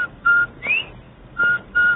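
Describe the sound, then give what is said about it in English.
Clear, high whistled notes of a bobwhite quail call, a few short bright tones with one quick upward-sliding note among them, separated by brief gaps. “Everybody loves the cheery whistle of a Bob White.”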